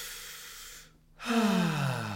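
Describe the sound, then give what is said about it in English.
A deep breath: a long airy inhale, a brief silent pause, then a louder, voiced exhaling sigh whose pitch slides downward as it fades. “Let's take a deep breath together.”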